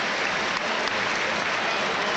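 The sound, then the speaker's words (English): A football stadium crowd applauds at the full-time whistle after a 3-0 home win. Dense, continuous clapping holds a steady level throughout. “Great applause at Goodison Park.”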